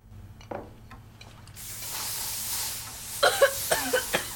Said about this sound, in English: She sprays two cans of air freshener.